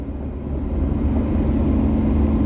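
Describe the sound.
A car drives slowly along a snowy road, giving a steady, low rumble of engine and tyres that holds even throughout, with no voices.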